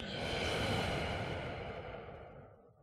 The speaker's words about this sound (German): Loslassen, entspannen. Tief ein und ausatmen.